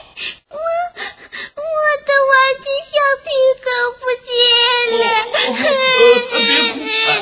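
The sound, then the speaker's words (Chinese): A child cries loudly in uneven, gasping sobs and whimpers broken by short pauses, then breaks into a longer, drawn-out wail toward the end. “你干嘛要哭啊？”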